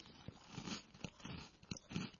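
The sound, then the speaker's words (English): Someone bites into a crunchy cocoa cream biscuit, making a few faint, irregular crisp snaps and crackly chewing crunches. “I'm going to go in there and give it a crunch and see if I end up with crumbs all over the desk, because they look like they could do that.”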